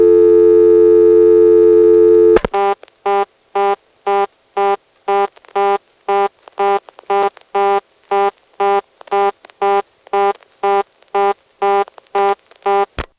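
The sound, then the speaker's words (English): A 1977 telephone dial tone holds steady for about two seconds, then cuts off. A reorder tone follows, a loud, rapid on-off beeping that repeats many times until the end. “This 1977 dial tone is not going to result in a simple drop of the register sender, as it did 4 years ago. Instead, it ends up going to a reorder tone, and interestingly, the reorder tone is just there when the register sender drops.”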